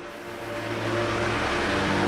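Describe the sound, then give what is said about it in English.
A lorry engine starting up and pulling away onto the road, a dense low rumble with steady tonal drone that builds gradually in loudness over about two seconds. “The lorry starts up and rolls out onto the road.”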